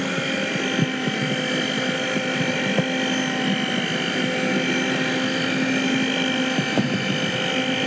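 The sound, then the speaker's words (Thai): Steady motor drone of an electric blender mixing ingredients until smooth, a constant loud hum with a few faint clicks and no pauses throughout. “การใส่แต่ละพาร์ทเข้าไปอะค่ะจะต้องปั่นให้เป็นเนื้อเดียวกันนะคะแล้วค่อยเติมอีกพาร์ทลงไปนะคะ”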